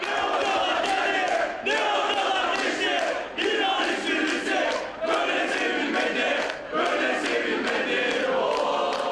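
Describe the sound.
Football fans chanting in unison for an Italian coach at an airport, a loud, dense mass of voices repeating chant lines with short breaks between phrases throughout.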